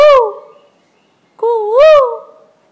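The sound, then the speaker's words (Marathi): A koel sings its sweet call in two drawn-out, tonal notes with a wavering pitch, separated by a short pause. The second call is longer and louder than the first. “तितक्यात त्याला कोकिळेचे मधुर सूर ऐकू आले”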